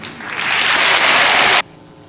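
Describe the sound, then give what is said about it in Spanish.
Audience applause at a graduation ceremony of a state teacher-training institute. Loud, dense clapping swells over the first half second, holds steady, then stops abruptly, leaving near silence. “Eso merece un aplauso antes de continuar.”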